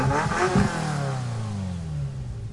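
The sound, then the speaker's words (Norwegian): A Ferrari car engine revving on a bridge: a loud burst early on, then the engine note sweeps steadily downward in pitch as it settles into a sustained drone. “vi sitter I en Ferrari.”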